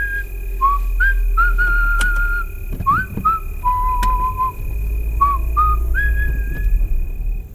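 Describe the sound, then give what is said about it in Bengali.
A person whistles a tune while walking back to a car: clear, high, pure notes, some short and clipped and some held, forming a wandering melody over a steady low rumble. “গাড়িতে ফিরে আসার সময় আমি শিস দিতে শুরু করলাম।”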